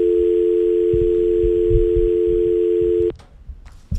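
Telephone dial tone heard when a radio call-in line drops: a steady, loud, unbroken tone holds for about three seconds, then cuts off abruptly, leaving faint scattered noise.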